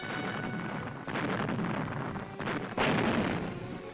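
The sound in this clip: Explosions as German crews blow up and scuttle their destroyers in the harbour at Narvik: a few heavy, rumbling booms break through a constant roaring noise.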